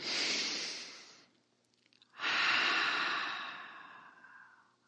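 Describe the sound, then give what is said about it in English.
A deep breath in and out during a guided breathing exercise: a long, soft airy inhale, a short pause, then an even longer breathy exhale that slowly fades, with no talk. “let's take a deep breath and bring in light and bring in that infinite love that's everywhere, and then breathe it out to our Paradigm Shifters community.”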